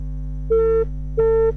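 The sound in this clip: Telephone ringback tone of a call that goes unanswered: two steady, mid-pitched beeps of equal length separated by a pause, sounding over a constant low electrical hum.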